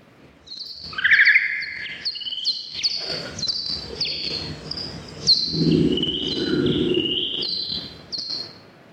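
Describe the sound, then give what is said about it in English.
Bat ultrasound advertisement call from the peak of the mating season, slowed down to audible pitch: rapid, high chirpy tweets and trills repeating throughout, with a low rumbling patch midway. “So that was a bat. That was bat ultrasound recorded above your hearing range, but slowed down so you could hear. So that was an advertisement call from the peak of the mating season.”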